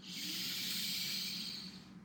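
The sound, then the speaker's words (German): A deep breath drawn slowly in through the nose during a breathing exercise, a steady airy hiss lasting about two seconds with no break, alone and without any talk. “Und dafür nehmen wir drei tiefe Atemzüge durch die Nase ein, ziehen die Schultern dabei hoch zu den Ohren”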